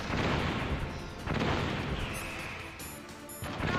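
Missile explosions in the video game Metal Gear Solid Integral roar as heavy, booming blasts in two broad swells of low rumble, with faint electronic beeps near the end.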